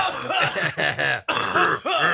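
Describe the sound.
Raspy, voiced coughing and throat-clearing from inhaled coal dust, a string of several hacking, groaning bursts with brief breaks between them.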